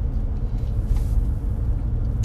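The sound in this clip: A car drives slowly, at about 20 miles an hour, through a road construction zone. A continuous low engine and road rumble holds steady throughout with no clear separate events.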